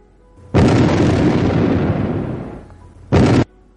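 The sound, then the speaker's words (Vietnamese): Two explosions of thrown thunder bombs landing near a marsh: a loud, broad blast with a long rumbling decay, then a second, shorter and sharper burst after a brief lull. “Hai viên thiên lôi tử rơi xuống cách đầm lầy cách đó không xa, ầm ầm nổ tung.”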